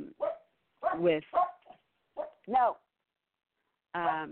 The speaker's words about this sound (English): the dog is going to bark now through this whole thing